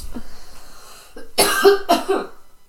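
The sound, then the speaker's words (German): A small cough comes in a few short, raspy bursts, with faint sounds before it and a brief quiet after. “Ein Hüsterli auf Seiten von Berlin.”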